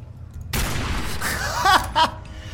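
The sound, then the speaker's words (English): Gunfire in a covert-operations video game begins with a sudden loud onset and continues as a dense, noisy volley, followed by a couple of short voiced bursts near the end. “Can I just shoot Molly?”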